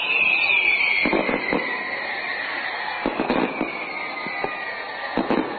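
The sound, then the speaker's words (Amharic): Celebration fireworks boom over Bahti Meskerem Square in Asmara, Eritrea, during a national holiday: repeated sharp bangs and crackles come in clusters, while a whistling tone slowly falls in pitch. “በተለይ ፕሬዚደንት ኢሳያስ አፈወርቂ ለህዝባቸው ንግግር ባሰሙት አስመራ ከተማ በሚገኘው ባህቲ መስከረም በሚባለው አደባባይ በዓሉ በሙዚቃና የደስታ ርችት የደመቀ ሆኗል።”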